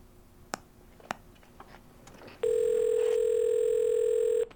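A telephone gives a steady, buzzy electronic tone that holds unbroken for about two seconds. A few faint clicks come before it against a quiet background.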